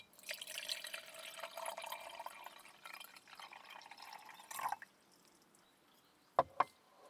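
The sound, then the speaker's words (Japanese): Hot water poured into a teapot, a steady splashing pour for about five seconds that then stops, followed after a short pause by two sharp clicks. “こちらに移して、お湯を注ぎます。”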